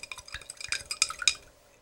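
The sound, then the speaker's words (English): A spoon stirring a drink in a glass, giving many quick, light clinks and scrapes in a rapid uneven rhythm that fade out after about a second and a half. “Put the spoon in. Mix it up a little bit here.”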